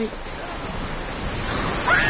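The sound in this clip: Big ocean waves breaking on the shore and surging up to a road in strong wind: a dense, continuous roar of surf, steady and fairly loud throughout, swelling slightly near the end.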